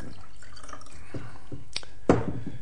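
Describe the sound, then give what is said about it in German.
A drink being poured into a glass: a faint liquid trickle over quiet room noise, ending in one brief, louder splash near the end. “Darf ich Ihnen nachschenken? Nein. Aber Sie erlauben doch, dass ich...”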